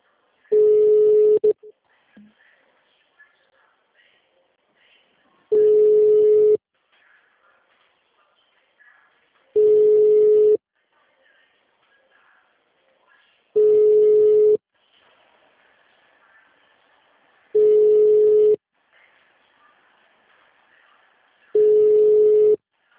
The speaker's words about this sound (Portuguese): Vou ligar na secretaria e transferir para ela.